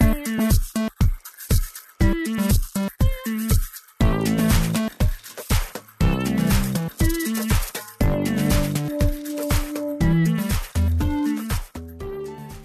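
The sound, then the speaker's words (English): Music created with the Bandimal app: a steady beat of sharp percussive hits with short tonal notes and sustained pitched tones layered between them, playing alone with no voices. “let's hear a clip of some of the music created with Bandimal.”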